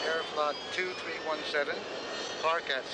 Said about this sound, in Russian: Аэропорт. Тягач паркует огромный Boeing 747 авиакомпании Air France.